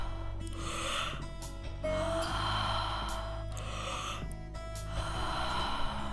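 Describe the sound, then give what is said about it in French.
Deep circular breathing during a fitness exercise, several long breathy inhales and exhales in slow cycles, with a steady tonal bed underneath. “Inspirez, relâchez. Faites de belles respirations circulaires et profondes.”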